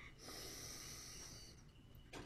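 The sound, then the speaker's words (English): A soft nasal inhale during a guided breathing exercise: a steady, airy hiss lasting over a second, a short pause, then the start of another breath. “And we're going to just breathe in through our nose into our tummy for 2 seconds.”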